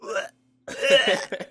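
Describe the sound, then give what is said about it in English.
A voice imitating a choking, strangled sound: two short croaking, gurgling bursts split by a brief silent pause. “It would be some kind of choking sound as I was strangling myself so that I didn't have to watch it anymore. Really? What would that sound like? Something like...”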